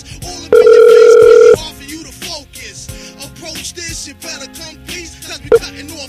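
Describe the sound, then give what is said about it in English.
A phone ringback tone sounds as a call to a bail bonds office rings out: one loud, steady, even-pitched tone lasting about a second, followed by quieter, muffled background sounds. “Well, let me change the caller ID. But yes, I'm calling him back.”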